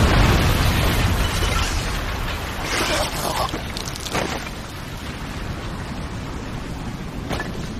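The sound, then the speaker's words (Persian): An explosion booms and rolls into a broad, roaring rumble, loudest at the start. The rumble stays sustained with scattered crackling bursts as it slowly eases off. “منفجر شد.”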